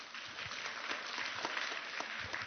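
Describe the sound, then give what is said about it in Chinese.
Faint, steady applause at a church gathering as guests are called up to share their experiences, a continuous dense patter of many hands that holds at an even level throughout. “俾掌声佢哋先”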